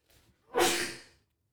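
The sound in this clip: A single sneeze, partly muted, opens with a faint quick intake before a sudden breathy burst that fades away within about half a second.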